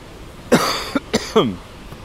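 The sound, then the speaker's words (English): Four short, harsh coughs from a person with muesli cereal stuck in the throat. They come in quick succession, some with a throaty, voiced edge, alone with no talk. “This always happens when I have cereal for breakfast, which I normally don't have. But sometimes, I don't know, something gets stuck in my throat.”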